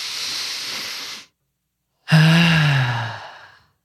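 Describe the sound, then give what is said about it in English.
A deep breath: a long airy inhale, a short pause, then a louder voiced exhale that sighs out and slowly fades. “Let's take a breath. Take a breath. Inhale.”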